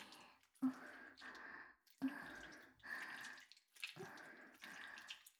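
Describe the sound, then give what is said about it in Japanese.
Water drips and splashes while feet are washed: several bursts of broad, wet noise separated by short pauses, each opening with a sharper drip or splash, with no voices. “まだ足を洗ってるところですから。”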